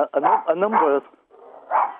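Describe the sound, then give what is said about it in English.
A dog barking, with a few loud, yelping barks and whiny yips in quick succession, then a short pause before one more bark. “Sorry, that's my dog barking in the background. I'll just shut him out.”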